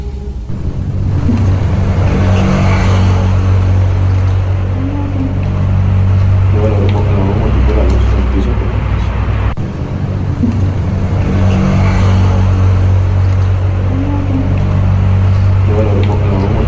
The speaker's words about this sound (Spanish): No, es cuando se oye el ruido del coche